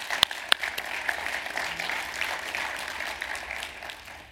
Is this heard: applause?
yes